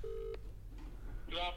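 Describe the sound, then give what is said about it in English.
Telephone dialing tones as a call is placed. A steady electronic tone sounds briefly, then a gap, then a short cluster of brighter tones near the end. “Let's dial him in now.”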